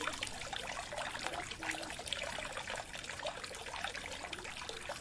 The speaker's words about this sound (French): Voilà une fontaine. Ça me donne soif.